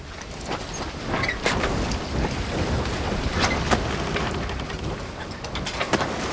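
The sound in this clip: Sailboat under way on the North Sea, with a continuous rush of wind and water broken by frequent sharp knocks and splashes throughout.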